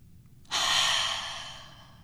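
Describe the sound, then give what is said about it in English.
One deep breath, a soft airy rush that starts abruptly and fades slowly over about one and a half seconds, with no talking. “now let's take a breath together.”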